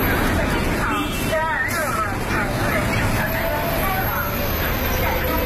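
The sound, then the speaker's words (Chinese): A Beijing city bus on route 126 pulls into a stop, its engine rumble blending into steady traffic noise and a constant murmur of crowd chatter, dense and unbroken throughout. “这是126路公交车进站时的声音，这段声音也伴随了这条线路上的乘客多年。”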